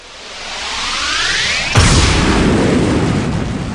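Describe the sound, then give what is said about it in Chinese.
An atomic bomb explosion effect, loud and alone. A rising rushing roar builds, a heavy blast hits, and a broad, sustained rumble follows to the end. “尼玛，不是这样子的，你这是原子弹爆了好吗？”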